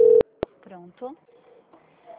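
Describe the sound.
A brief, steady telephone tone marks a call transfer, followed by two sharp clicks and then a voice speaking over the line.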